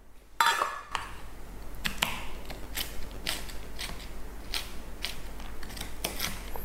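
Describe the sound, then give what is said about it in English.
A knife roughly chops about 60 grams of walnuts or pecans in many crisp, uneven cuts and clicks, fairly faint, with no talking. “can chop some walnuts or some pecans. I'm using just about 60 grams of it. Give it a rough chop.”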